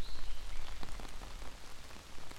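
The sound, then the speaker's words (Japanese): Rain falling in a forest, a steady dense patter on leaves and ground, with scattered louder individual drops standing out from the constant hiss. “今日は雨が降っているから、外を歩くのはちょっと難しいんだけど。”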